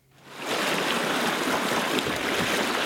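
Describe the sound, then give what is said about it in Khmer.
Rushing salt water from an outrigger canoe being paddled and raced at sea in the Torres Strait Islands off northern Queensland swells up within the first half second and then holds as a steady, dense wash of splashing. “នោះគឺជាសម្លេងនៃនិមិត្តរូបរបស់កំរងកោះ Torres Strait Island នៅចុងភាគខាងជើងនៃរដ្ឋ Queensland នៅក្រោមការចែវនិងប្រណាំងនៅលើទឹកប្រៃ”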